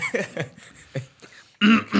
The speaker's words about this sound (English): Cough, cough, clear of throat.